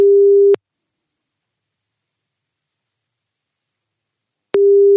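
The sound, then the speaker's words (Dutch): Telephone ringback tone heard while placing a call to a contact: a steady, mid-pitched electronic tone sounds briefly, then about four seconds of silence, then the tone returns at the end. No voices. “die kunnen we nu gaan bellen”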